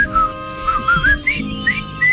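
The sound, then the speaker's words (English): A person whistles a bright tune of many short, clear notes, several gliding upward. The whistling is loud and stands alone against faint background noise. “then the next moment, I'm like whistling.”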